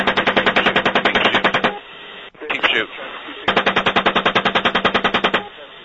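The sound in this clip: Gunfire from recorded combat video audio: two long bursts of rapid automatic fire, each a fast, even string of loud, narrow-band cracks, with brief radio-style talk between them.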